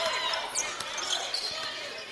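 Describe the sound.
A basketball is dribbled up the court during a college game between Bemidji State and Duluth. A few soft bounces sit faintly under steady crowd noise and talk.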